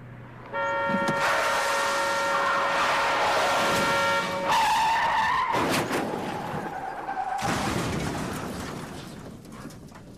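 A car skids with a long, loud, harsh tyre squeal that runs almost the whole clip, holding a steady whine early on before it turns to broader scraping noise. No one speaks.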